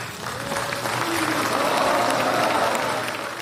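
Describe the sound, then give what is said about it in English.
Applause ripples through the room at the signing of a peace agreement between a US government representative and an Afghan Taliban representative in Doha, Qatar, as a steady wash of clapping that builds slightly and holds. “That's the sound of clapping in Doha, the capital of Qatar, where a representative of the U.S. government and a representative of the Afghan Taliban signed a peace agreement this weekend.”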